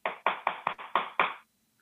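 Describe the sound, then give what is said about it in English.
A voice imitates rapid-fire tree knocks, like wooden baseball bats slammed together: six sharp, hollow bursts in quick succession, then silence. “6 very rapid fire tree knocks, I suppose. It sounded like wood on wood. Well, it sounded like 2 guys with baseball bats just slamming them together, wooden baseball bats.”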